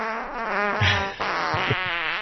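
A fart sound effect: a long, buzzy, wavering blat of about two seconds with a brief dip midway, heard alone.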